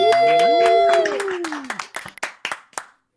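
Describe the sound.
An audience claps to welcome a guest on a talk show. Sharp hand claps follow a harmonic tone at the start, then thin out into a few separate claps before stopping.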